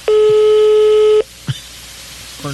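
A single loud, steady electronic telephone tone on a call holds for about a second and stops abruptly, followed by a few faint, brief sounds.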